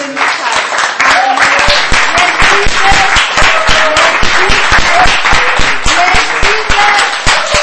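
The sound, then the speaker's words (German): Loud audience applause at a Christian worship gathering, clapping for Jesus: a dense, sustained burst of many clapping hands with voices calling out through it. “Ja, wollen wir Jesus, können wir Jesus einen mächtigen Beifall geben?”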